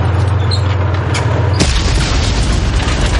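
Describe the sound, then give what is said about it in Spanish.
A bomb blast hits a tank's wheels in a World War II film battle scene. A low rumble gives way to one sharp, loud explosion, followed by a dense, roaring wash of noise. “Las bombas estallan y la cadena de las ruedas queda inutilizada.”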